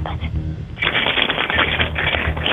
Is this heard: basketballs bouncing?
no